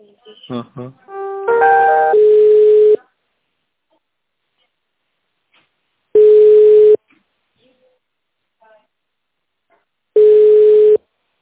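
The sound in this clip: A telephone line tone plays while a call is being transferred: three loud, steady mid-pitched beeps, each under a second long and separated by several seconds of silence. The first beep is overlapped by brief speech.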